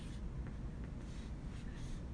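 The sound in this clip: A pen draws on paper, producing faint, soft scratching strokes that come in several short bursts over a quiet background.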